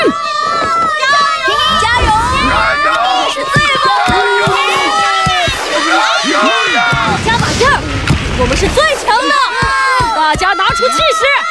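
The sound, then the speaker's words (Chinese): Spectators at a ball match cheer on two teams. Many high, excited young voices shout and cheer loudly and without a break, overlapping into a constant crowd roar. “大家给两队加油鼓劲。”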